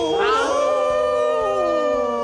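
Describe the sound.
A man imitates a wolf howl with one loud, sustained cry that rises sharply at the start, then slides slowly downward in pitch for about two seconds.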